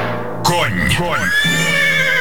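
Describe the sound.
A horse, an Oryol trotter, neighs in a shower-gel commercial: a loud whinny that begins abruptly and wavers up and down in pitch before settling into a long, quivering, sustained cry.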